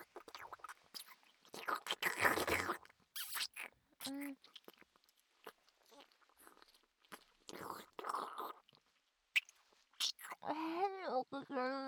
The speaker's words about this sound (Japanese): おいしい。カリ カリカリ。チョコでカリカリ気持ちいい。